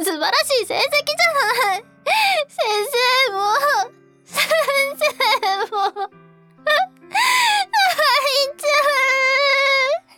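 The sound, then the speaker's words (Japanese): Crying from someone who came sixth at their first tournament: several drawn-out, wavering wails alternate with bursts of talking voices. “もう泣くことないじゃない初めて大会に出て6位よ”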